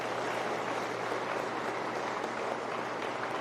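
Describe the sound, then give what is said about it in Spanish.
Steady applause from an audience welcoming an official at a ceremony at a federal social reinsertion centre. The dense, even patter of clapping continues throughout at a constant level, with no voices on top. “les pido que los recibamos con un fuerte aplauso al licenciado Raúl Platón del Cueto Morales”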